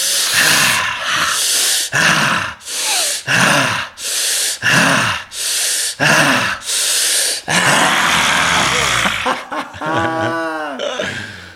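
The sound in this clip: Forceful exhaling breaths during breathwork come as many loud, rushing puffs in a steady rhythm, followed by a longer noisy breath, quicker panting and a short voiced sigh.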